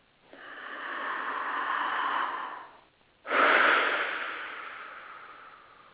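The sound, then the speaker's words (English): A slow deep breath: a long, soft, airy inhale lasting about two seconds, a brief pause, then a stronger, louder exhale that gradually fades away, with no talking. “okay, let's take this deep breath and breathe into making that a reality.”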